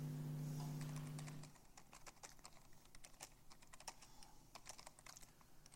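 Typing on a computer keyboard while entering code: a long run of many light, quick key clicks at an uneven rhythm. A steady low hum sounds under the first stretch, then the keystrokes continue alone.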